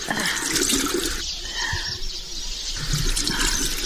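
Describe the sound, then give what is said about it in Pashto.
Water splashing as a child's face is washed, a steady rushing wash of water with shifting splashes throughout and no talking. “ته صبر، اوس یې درته مینځم.”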